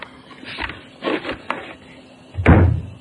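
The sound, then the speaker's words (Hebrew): A cupboard door opens with a few soft wooden knocks and scrapes, then a louder, fuller thud near the end, with no talking. “את פותחת, נכון. את מה את פותחת? אוי! פותחת את הדלת של הארון.”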